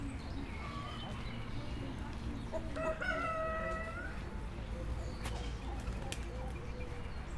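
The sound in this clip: A rooster crows once in a poultry yard among turkeys and pheasants. The call is a clear, harmonic crow of about a second, set over steady background noise with a few faint clicks.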